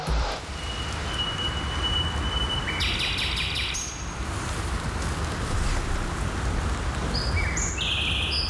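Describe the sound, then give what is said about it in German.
A nightingale sings in the middle of Berlin, giving clear whistled notes and brief high phrases over a steady, dense noisy background. “So schön klingt Berlin. Das ist eine Nachtigall mitten in Berlin.”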